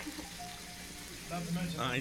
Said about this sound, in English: Has anyone ever called you from the shower before? You're the first.